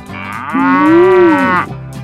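A cow moos once in a long, drawn-out call that swells, rises slightly in pitch and then falls away, loud and clear over a quiet background.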